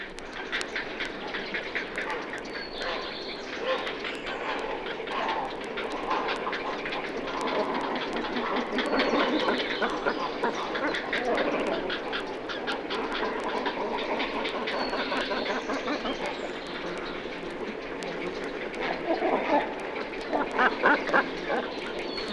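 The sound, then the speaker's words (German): At a nesting colony, breeding cormorants give deep, hollow calls while young grey herons answer with high, short calls. The overlapping calls form a dense, continuous chorus throughout, with no talking. “tiefen, hohlen Rufe gehören den brütenden Kormoranen, die hohen, kurz ausgestoßenen Laute stammen von den jungen Fischreihern.”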